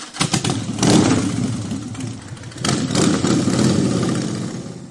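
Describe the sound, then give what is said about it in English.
Motorcycle engines rumble at a street event on Main Street in Ames during a motorcycle night, with a low, throaty drone that surges twice as the engines rev up and then settles back to a steady idle. “That's right. It's motorcycle night here on Main Street in Ames tonight.”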